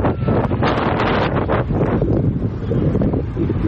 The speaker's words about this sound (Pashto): د زندجان د زلزله ځپلو خیمې، سخت بادونه او سړه هوا. نږدې هر ورځ او شپه دلته سخت بادونه او توپانونه چلیږي.